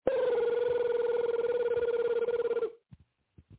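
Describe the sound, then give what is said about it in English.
A telephone rings in one long, rapidly trilling electronic burst that lasts under three seconds and then cuts off, followed by a few faint clicks. “Phone! Get your fucking phone now!”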